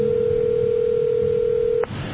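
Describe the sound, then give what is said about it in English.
A telephone ringing on the line: one steady electronic ring tone sounds for nearly two seconds, then cuts off abruptly, over a constant background hiss. “And that phone is ringing.”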